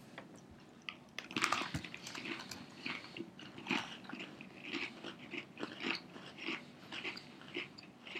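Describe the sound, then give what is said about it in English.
Biting and chewing an Oreo cookie: faint, irregular crunches and mouth sounds, many in a row, with no talking. “I like plain Oreos, and this says it tastes like plain Oreos. So, salud.”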